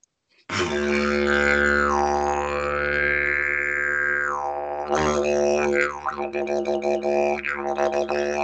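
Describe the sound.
A voice imitates a didgeridoo by mouth: a low, buzzing drone with slow sweeping tonal shifts, then a wetter suction sound of fluid bubbles with rapid, uneven pulsing.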